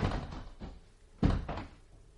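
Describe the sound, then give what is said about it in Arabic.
A door is pulled shut with a few dull, low thumps, the heaviest coming late, fairly soft and with no voices. “تعالى تعالى خليهم يقفلوا الباب علينا. اقفلوا الباب علينا.”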